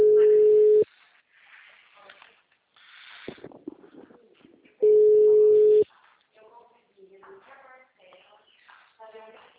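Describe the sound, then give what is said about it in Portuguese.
Ringback tone of an outgoing telephone call: two steady, loud mid-pitched tones, each about a second long and roughly four seconds apart, with quieter rustling and murmuring sounds between and after them. “Vou fazer a ligação agora, hein?”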